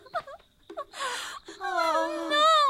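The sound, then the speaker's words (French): Crying from a character in a French-dubbed animated series, with broken, shaky whimpers that swell into wavering, sobbing wails and grow louder toward the end. “il faut pas pleurer comme ça”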